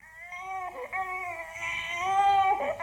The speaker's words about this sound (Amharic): ብጣዕሚ ይበኪ ስለ ዝነበረ ድማ ኣዝያ ሓዘነትሉ